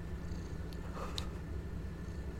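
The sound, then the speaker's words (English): A domestic cat purrs right beneath a microphone with a steady, low, rumbling purr that runs without break through the whole clip. Nobody talks over it. “if you can hear my cat purring, she's just right under that's, the mic”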